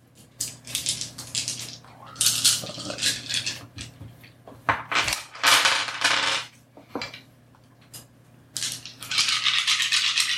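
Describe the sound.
Ten dice rattled and rolled onto a table during a tabletop role-playing game, heard as several bursts of bright clattering and tumbling separated by brief pauses, with no talking.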